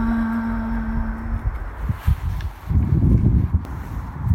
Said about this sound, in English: So walking along the St. Michael's route, it's the route to Santiago as well, which would be brilliant to do one day.